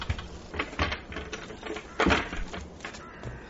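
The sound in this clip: Knocking on a house door, delivered as a series of irregular raps of uneven loudness, with one heavier, harder blow landing partway through.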